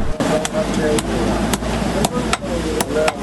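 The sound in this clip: A blacksmith in a blacksmiths' bazaar hammers and beats iron sheets. Sharp metallic blows land at an uneven pace over a constant rough background, with a voice talking underneath.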